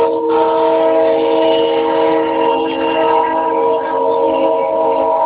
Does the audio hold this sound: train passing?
yes